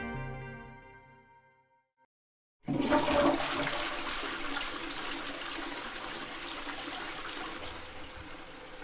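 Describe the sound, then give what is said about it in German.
A toilet flushes with a sudden loud rush of water that pours on steadily to the end, coming in after a faint fading tone and a brief silence. “Viel Lärm ums stille Örtchen. Der Welttoilettentag.”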